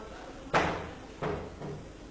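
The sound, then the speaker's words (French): A door with a broken latch is pushed closed: three dull knocks, the first strongest and the later two following in quick succession. “Si vous pouvez fermer la porte là-bas, c'est sympa.”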